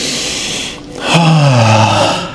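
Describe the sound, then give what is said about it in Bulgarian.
Deep breathing during a relaxation breathing exercise: a slow, airy breath, a brief lull, then a louder, fuller breath carrying a low voiced tone that slides downward. “Две-три по-дълбоки вдишване, издишване. И пак. И пак.”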